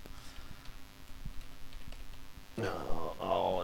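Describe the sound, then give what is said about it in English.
Keys clatter faintly as someone types a search on a computer keyboard, a quick, irregular run of light clicks. A person then starts talking over the end of the typing. “Know what I'm specifically looking just for? Just type in type in DJ Vlad Lil Baby.”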